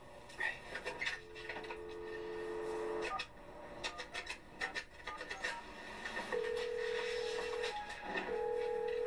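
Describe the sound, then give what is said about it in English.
A telephone is dialled at a front desk: short clicks and button taps, plus a steady mid-pitched tone held for about two seconds, heard twice, over faint background noise. “You must dial 9 first.”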